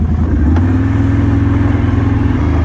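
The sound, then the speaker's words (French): A quad bike engine running on a bison farm, a steady low mechanical rumble with a rattling, pulsing clatter throughout and no voices. “Allez, on remonte sur le quad et puis on va aller voir les bisons.”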